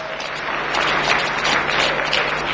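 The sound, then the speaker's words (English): A church audience applauds after praise and worship, giving a steady, dense wash of clapping that holds at an even loudness throughout. “Come on, give the Lord a big hand.”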